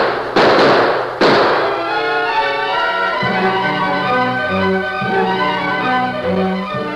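Gunshots fired through an open window of a shack: two sharp, loud bangs in quick succession, followed by dramatic music with sustained tones.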